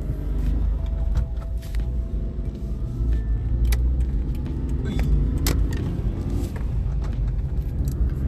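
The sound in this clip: Steady low engine and road rumble from a car being driven, with scattered light jingling and clicking rattles, like keys, over the continuous drone.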